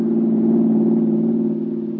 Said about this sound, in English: That's a smooth-running motor you have there, Mary. What kind of gasoline do you use? Signal, Jim. I like the go it puts into the old buggy.